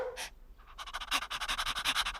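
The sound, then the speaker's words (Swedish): A big farmyard dog pants: a short breath or two, then a rapid, even run of many quick, breathy huffs that keep a steady rhythm to the end. “Hon gick nu ut och frågade stora vovven på gården.”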